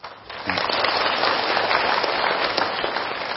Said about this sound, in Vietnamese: An lạc chưa mà vỗ tay dữ vậy.